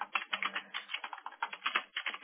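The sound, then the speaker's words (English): Typing on a computer keyboard: many quick, light key clicks in a steady, slightly uneven patter, muted and thin in tone, with no voices. “Bear with me here. I'm just typing this out.”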